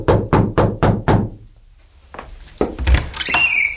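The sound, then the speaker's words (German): Five firm, evenly spaced knocks on a hotel room door ring out in quick succession. After a short silence come further heavier thuds and rustling movement. “Er atmete einmal tief ein und klopfte entschlossen an.”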